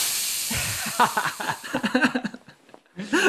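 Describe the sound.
Hissing sound effect meant as Ether being vaporized: a rush of breathy hiss broken by sputtering, pitched bursts that fade out, then a final short flurry.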